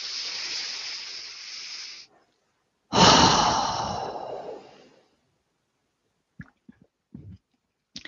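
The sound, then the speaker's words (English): A deep breath drawn in during a relaxation exercise, a steady airy hiss lasting about two seconds, then after a pause a second long breath sound that fades out, followed by a few faint brief clicks. “And one more breath, a deep breath in.”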